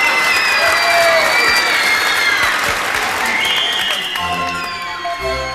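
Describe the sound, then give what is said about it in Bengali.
An audience bursts into loud, sustained clapping and crowd noise at a hypnotism show. The applause thins slightly toward the end as other tonal sounds emerge. “দর্শক কিছুক্ষণ হতভম্ব থেকে হঠাৎ তুমুল হাততালিতে ফেটে পড়ল।”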